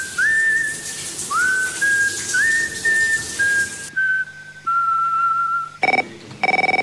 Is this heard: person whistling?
yes

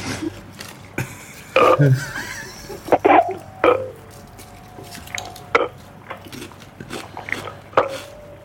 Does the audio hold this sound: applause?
no

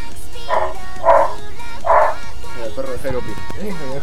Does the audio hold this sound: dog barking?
yes

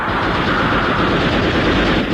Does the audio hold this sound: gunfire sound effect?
yes

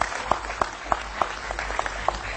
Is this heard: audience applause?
yes

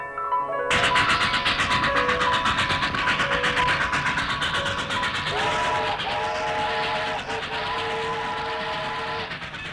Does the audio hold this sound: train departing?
yes

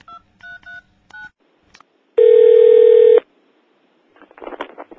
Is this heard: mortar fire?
no

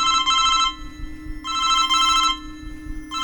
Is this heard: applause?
no

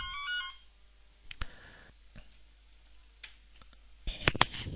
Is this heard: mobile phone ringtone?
yes

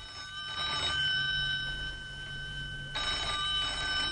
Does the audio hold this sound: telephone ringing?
yes

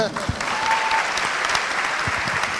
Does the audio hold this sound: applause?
yes

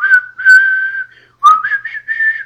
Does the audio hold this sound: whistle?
yes

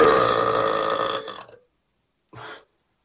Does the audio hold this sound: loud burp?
yes

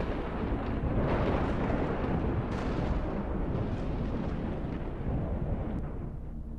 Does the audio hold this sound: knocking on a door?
no

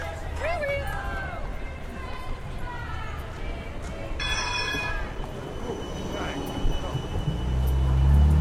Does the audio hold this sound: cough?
no

